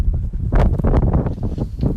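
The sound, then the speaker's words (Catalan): Strong, freezing wind in Svalbard at a wind chill of minus 24 degrees, a loud, continuous low roar with heavy buffeting gusts rising and falling against the microphone. “No va parar de bufar aquest vent amb una sensació tèrmica de menys 24 graus”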